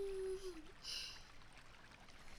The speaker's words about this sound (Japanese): 今日はいい小豆が手に入ったからよーく洗っておかないとね。